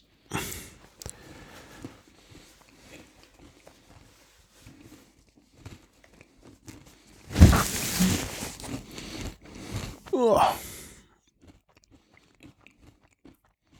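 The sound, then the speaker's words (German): Someone eats a Mallorcan specialty food: soft clicking mouth sounds give way to two louder bursts of crunchy chewing and biting. “Jetzt also, darfst du das gleich essen. Du musst es schnell essen. Sonst läuft das davon. Läuft es davon? Ja, sehr lecker. Ich esse auch mal was davon.”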